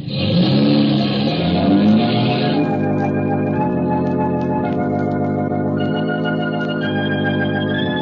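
A car engine revs while driving. Its pitch climbs over the first couple of seconds, then settles into a steady, loud drone that runs to the end.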